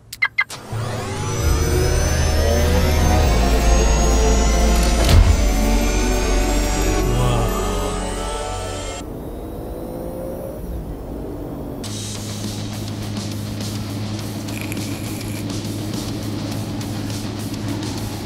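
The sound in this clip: A car engine starts and revs as the car drives off, rising in pitch to a loud roar before settling into a steadier, lower hum that continues to the end.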